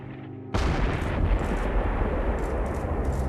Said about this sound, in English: The lead aircraft is going to engage it here momentarily with a 500-pound bomb on the target.